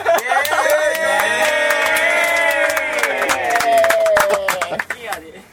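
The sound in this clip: A live audience with drinks cheers and calls out together for a toast. The lively shouting holds steady, then breaks into scattered clapping and fades near the end.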